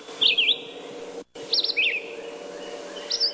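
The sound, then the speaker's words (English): Red-eyed vireo song: a few short, bright, warbled phrases separated by pauses, each a quick slurred whistle over a faint steady background hum, with a brief dropout to silence midway. “That's the song of the red-eyed vireo.”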